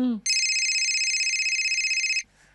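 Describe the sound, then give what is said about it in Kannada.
An electronic telephone rings once in a home: a single loud, high, warbling burst lasting about two seconds with a fast fluttering pulse. A brief vocal sound comes just before it, and quiet background follows. “ಒಂದ್ minute, phone ನೋಡ್ತೀನಿ.”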